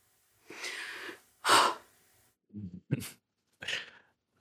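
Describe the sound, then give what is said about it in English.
A group of people taking a quick breath together: a few separate, airy breath bursts of varying loudness with short silences between them, and no speech. “It's good to take a breath. I know that's one of your techniques, is to get a group of people to collectively, we can just take a quick breath here.”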